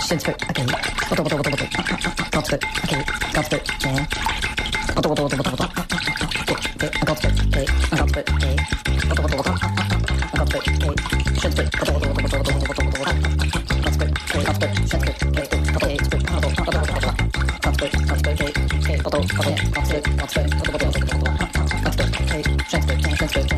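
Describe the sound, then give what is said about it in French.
Whisking homemade mayonnaise while lemon juice is poured in: a rapid, steady clatter of whisk strokes against the bowl that runs throughout, with people talking over it. “Puis là, tu vas faire ta petite mayonnaise. Oui, est-ce que tu veux verser le citron pendant que je fouette?”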